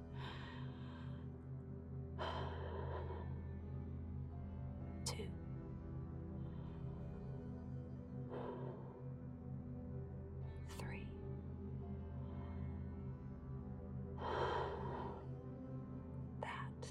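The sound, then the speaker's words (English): Deep breaths, three slow, airy inhalations spaced evenly over a soft, steady musical tone, faint overall. “And now take three deep breaths.”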